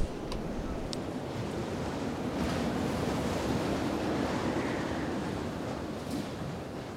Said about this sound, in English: we're struggling to pin the tent pegs into the ground. But hey, the wind's only blowing over the tent most of the time, so we'll be fine.